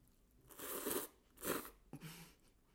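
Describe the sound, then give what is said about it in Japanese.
Crunchy food being bitten and chewed, three faint crisp crunching bursts separated by short pauses, heard alone without talk. “今食べるタイミング間違えました”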